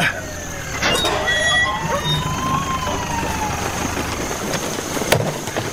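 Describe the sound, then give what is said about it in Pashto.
An ambulance arrives with its siren wailing, tones sweeping up and down over a low engine rumble, with a sharp knock near the end. “د امبولانس غږ شو، لکه چې ډاکټر صاحب خالد راورسېده.”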